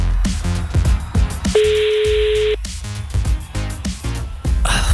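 A telephone call being dialed to a radio station to win festival tickets, heard as one steady, level tone lasting about a second, set between stretches of louder, busier sound.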